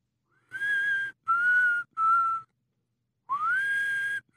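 A man softly whistles a nursery tune: three clear sustained notes, each slightly lower than the last, then after a pause a note that glides upward and holds, heard alone.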